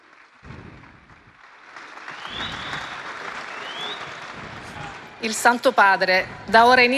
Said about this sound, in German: Es gibt Applaus für Papst Leo den 14., der jetzt seinen Platz einnimmt.